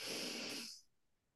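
A deep breath let out through the mouth during a guided breathing exercise, one loud airy rush that fades away to near silence in under a second.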